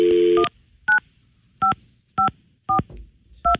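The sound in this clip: Touch-tone dialing as a telephone number is keyed in to reach a backup phone line. A longer opening tone is followed by five short, evenly spaced beeps, each a crisp two-tone electronic chirp with quiet gaps between.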